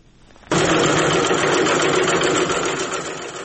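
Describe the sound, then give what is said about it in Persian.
Sewing machines running as young women stitch face masks in Faryab province, a dense mechanical whirring that starts abruptly and continues steadily, easing slightly toward the end. “این صدای چرخ ماشین های خیاطی است. ده دختر جوان فاریابی مشغول دوختن ماسک هستند.”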